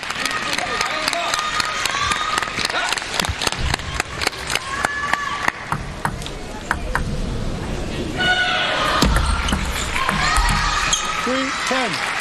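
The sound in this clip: Table tennis ball hits and bounces during a serve and attack in a match. Many quick, sharp clicks crowd the first half, with a commentator talking throughout and crowd noise building later.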